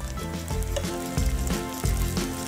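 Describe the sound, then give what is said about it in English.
Food sizzles as it fries in a pan until golden and crispy, a steady, loud crackling hiss broken by a few heavier bumps. “It's becoming nice and golden and very, very crispy on the outside. So, it's time to flip it.”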